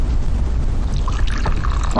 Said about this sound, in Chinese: 来，倒水。